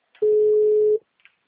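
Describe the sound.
A telephone tone sounds as a call drops: one long, steady, mid-pitched beep lasting under a second, followed by a faint click.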